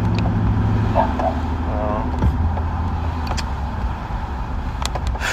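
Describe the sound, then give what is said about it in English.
Steady, low engine and road rumble of a car being driven, continuous throughout at an even level, with a few faint clicks near the end. “Sorry, I'm, like, driving. Driving and talking is usually kind of difficult.”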